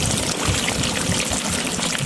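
Water flowing through a drip irrigation system in a farm field in Kandahar's Arghandab district, a dense, continuous trickling wash with no separate drops standing out, fairly loud and without talk.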